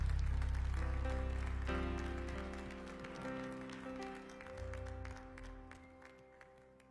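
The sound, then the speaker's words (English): Congregation clapping hands in praise during an evening church service, many loose claps over sustained musical tones and a low bass, gradually thinning toward the end. “Would you give the Lord a hand clap of praise in the house this evening?”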